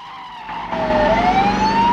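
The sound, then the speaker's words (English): A car chase with a police squad car in pursuit: engine noise swells as a wailing siren dips briefly and then climbs in pitch, growing louder over two seconds. “Bond rockets past the dumbstruck sheriff, still standing in the road. The burly sheriff double-takes. Bond weaves through traffic with the squad car on his tail.”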